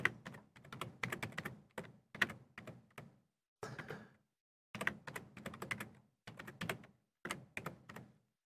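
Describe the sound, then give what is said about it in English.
Typing a password on a computer keyboard: faint, rapid key clicks in short irregular bursts separated by brief pauses, many keystrokes in all. “So let's put in my password here.”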